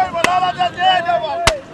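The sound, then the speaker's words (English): Two sharp bangs ring out during a military training exercise that simulates a truck bombing and an insurgent attack on a perimeter in an Iraq scenario. The bangs are well apart, and a man talks throughout. “There's been a truck bombing and the release of chlorine gas and a bunch of Shiite Muslim pilgrims happening by just then, beginning to protest, and insurgents attacking from the perimeter.”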